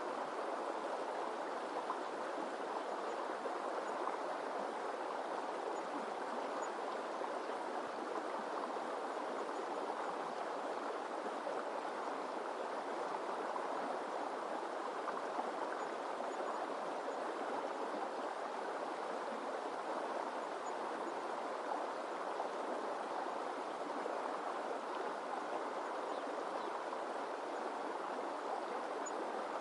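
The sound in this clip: A river flows with a faint, steady rushing of water that stays even throughout, with no breaks and no voices.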